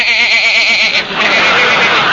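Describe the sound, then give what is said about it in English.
A sheep bleats in a loud, long, quavering cry with a wobbling pitch, followed by a rougher, noisier stretch of sound. “Here's the sheep man.”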